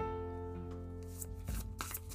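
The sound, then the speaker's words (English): Oracle cards from a Divine Abundance deck being shuffled and pulled, a few short papery riffles and slaps that break in over a soft sustained musical tone toward the end, fairly quiet overall. “Pulling some divine abundance cards now.”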